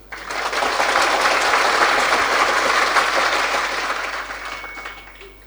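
Audience clapping in many hands swells quickly to a full, even roar, holds for several seconds, then gradually thins and fades out.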